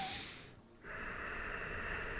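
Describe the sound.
A sniffing inhale through the nose in an ujjayi breathing demonstration: a hissy, airy breath that briefly dips almost silent, then a long steady breath noise that carries on alone to the end.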